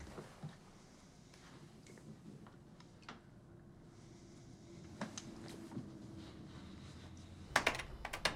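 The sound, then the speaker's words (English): Typing on a computer keyboard, soft and irregular clicking keys that stay faint, ending in a brief burst of louder, rapid clatter. “types on his computer naked.”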